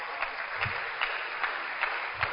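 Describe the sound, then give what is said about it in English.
Church audience applauding themselves during a sermon, a dense, even wash of clapping with gentle swells every half second or so, sustained at moderate loudness throughout. “Can you not clap for yourself? Clap for yourself.”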